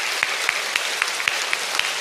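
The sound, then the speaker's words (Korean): Applause from a church audience encouraging its media-room staff comes through as soft, evenly spaced claps at a quick, steady beat over a faint hissy background. “우리 미디어실에 계신 분을 위해서 큰 박수로 격려해 주시면 감사하겠습니다.”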